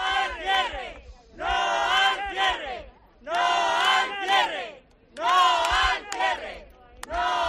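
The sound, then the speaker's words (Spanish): A crowd of more than a hundred neighbours protests outside a bank office against its closure, chanting loud rhythmic shouted phrases in several bursts separated by short pauses. “Allí más de un centenar de vecinos se han concentrado este miércoles frente a la oficina de Liberbank Unicaja para pedir a la entidad que no la cierre. Este era el sonido.”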